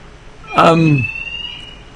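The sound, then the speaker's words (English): A fire alarm sounds as a thin, steady, high-pitched tone lasting about a second, starting together with a brief, louder burst that falls in pitch. “I'm pausing because the fire alarms are going off.”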